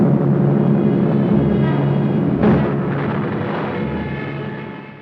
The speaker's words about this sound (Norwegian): Amerika tar mer og mer aktiv del i krigføringen. 80 bombefly blir sendt ut med kurs mot Norge.